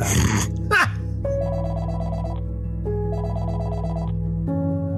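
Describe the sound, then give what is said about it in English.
A telephone rings in a house late at night: two electronic trilling ring bursts separated by a short gap, over a low steady hum, after a brief rough vocal sound at the start. “And the phone rings. Ring, ring. That's the phone.”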